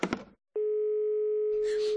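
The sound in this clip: A ringback tone sounds on an outgoing phone call: brief talk, a short silence, then a steady, single-pitched electronic tone that holds to the end, with some extra noise over its last part.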